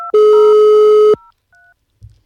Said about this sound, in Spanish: Está usted llamando al servicio telefónico de la Seguridad Social.